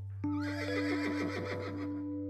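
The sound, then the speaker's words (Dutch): A farm horse with strong legs gives one long, loud whinny. Its quavering pitch wavers and slowly trails off over about two seconds, alone above a steady low hum. “Het paard staat al te trappelen.”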